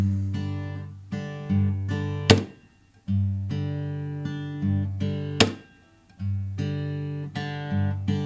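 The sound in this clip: Chord rhythm playing with a muted strum on beat four: ringing strummed chords, each bar closing with a crisp percussive mute, heard twice, giving a laid-back pulse.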